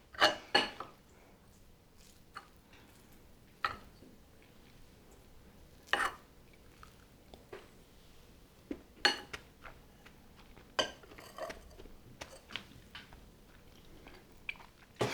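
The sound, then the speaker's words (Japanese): Eating oyakodon, a chicken and egg rice bowl: sporadic quiet chewing and biting with a few sharper clicks scattered across a long, mostly hushed stretch. “親の鶏肉、この卵、の親子丼の出来上がりです。ではいただきます。”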